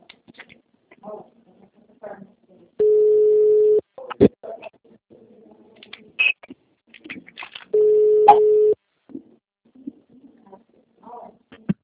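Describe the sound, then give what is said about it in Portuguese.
Two steady, low telephone ringback tones sound as a call is placed. Each lasts about a second and they are spaced several seconds apart, with faint voices and small clatters in between. “dá um toque lá pra ela”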